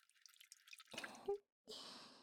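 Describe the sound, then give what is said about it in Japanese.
Water is scooped and poured for rinsing, with soft splashes and drips, a brief silence, then a steadier hissing pour, all quite faint. “じゃあ、流すね。水をすくって流しながら”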